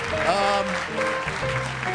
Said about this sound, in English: Don't keep applauding. That gets old.